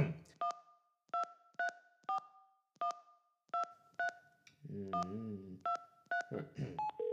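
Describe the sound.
A telephone number is dialed on a touch-tone keypad: many short, faint beeps of differing pitch come in an uneven rhythm, with a brief low warbling sound partway through.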